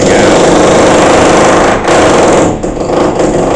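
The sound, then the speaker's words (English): Drilling in an upstairs apartment fills the whole stretch with a loud, continuous grinding buzz. It dips briefly a couple of times near the end. “there's a little bit of drilling going on in the apartment upstairs.”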